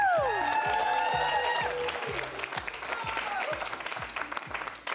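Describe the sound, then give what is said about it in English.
Audience applause and cheering at a live music performance: loud, sustained clapping and crowd noise over a steady rhythmic beat that keeps pulsing underneath. “Give yourselves a hand, louder, yeah.”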